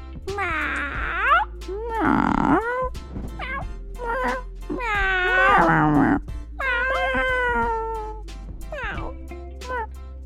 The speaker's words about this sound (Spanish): El gato maulla. Los gatitos también.